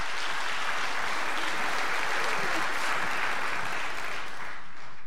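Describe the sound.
An audience claps to welcome a speaker at a church gathering, dense, steady applause that stays loud and even throughout, with no single claps standing out.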